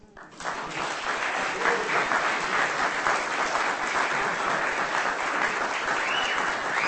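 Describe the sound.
Audience applause after a poetry reading: dense, steady clapping that starts abruptly after a short quiet moment and keeps an even, loud level for about six seconds without fading.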